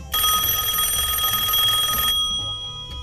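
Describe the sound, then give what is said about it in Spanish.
A telephone bell rings for an incoming call: one bright, continuous ring that lasts about two seconds and then cuts off, leaving only faint low background noise. “Gracias por llamar. Recibimos otra llamada.”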